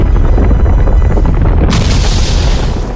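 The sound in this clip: Earthquake attack effect from a turn-based battle video game: a loud, continuous low rumbling roar with crackling noise that turns brighter and harsher partway through, then eases slightly toward the end.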